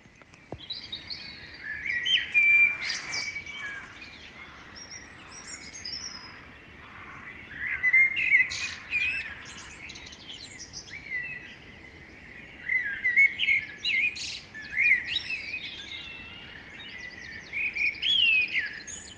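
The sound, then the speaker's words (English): Dawn chorus birdsong plays alone: bright chirping and whistled phrases come in several bursts separated by quieter stretches, with faint calls continuing between them. “Just some of the listeners sending in their dawn chorus recordings to our specially designated dawn chorus WhatsApp number.”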